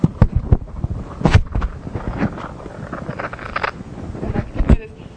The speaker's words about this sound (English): So there are a lot of systems that have crackling noise in response to a slowly changing driving force. I talked about magnets. So the noise sounds something like this.